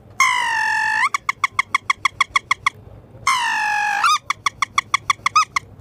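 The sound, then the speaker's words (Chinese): A swallow calls loudly on its own: two long, buzzy, harmonic notes, each followed by a quick, regular run of sharp chirping clicks. “春天肯定是小燕子”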